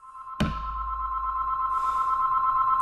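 A telephone in a café rings with a steady, high-pitched electronic tone that starts with a sharp click and runs unbroken for a couple of seconds, with no talk.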